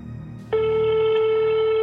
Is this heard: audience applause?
no

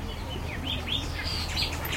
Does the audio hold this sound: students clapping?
no

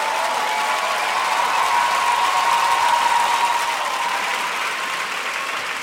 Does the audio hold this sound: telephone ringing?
no

